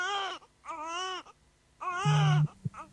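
A newborn baby cries right after birth, as the umbilical cord is about to be cut. A few short, high, wavering wails are separated by brief pauses, and a low buzzing tone joins near the end.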